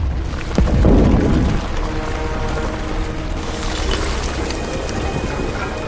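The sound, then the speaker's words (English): A deep rumbling boom as an enormous sphere of ice rises from a frozen plain, with a heavy low surge near the start settling into a steady churning, grinding roar with faint cracking textures. “they turn and watch as an enormous sphere of ice rises from the plain.”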